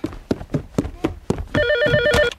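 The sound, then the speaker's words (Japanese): A telephone rings with a loud, warbling electronic trill that starts partway through and holds steady to the end, after several short sharp bursts. “あー、こんな時に電話。もう。”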